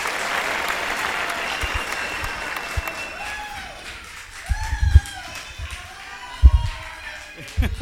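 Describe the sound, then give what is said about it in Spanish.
Audience applause for a speaker at a gathering, a dense burst of clapping that fades out, followed by a few scattered claps, thumps and shuffling, with voices faintly present. “Así que vamos a darle un aplauso para que se anime.”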